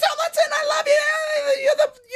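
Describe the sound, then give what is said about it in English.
A voice imitates an excited fan's scream: one high-pitched, breathy, sustained shriek with a wavering pitch, loud and alone, ending with a brief rising squeal. “you just need to scream like, oh, my God!”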